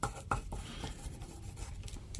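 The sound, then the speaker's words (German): Pen scratching on paper as a short note is written by hand, a steady dry rasp broken by a couple of sharper strokes near the start and running without pause or voices. “ich schreibe es dir kurz auf, was ich brauche”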